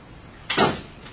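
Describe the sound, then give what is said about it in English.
A door closing gives a single short swish ending in a soft thud, heard alone over a quiet background. “I have to close the door for this one. Because there's some profanity.”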